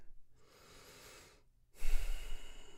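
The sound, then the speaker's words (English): A deep breath taken during a guided meditation: a long, soft inhale, a short pause, then a stronger, louder exhale, with no talking. “I invite you to take a deep breath.”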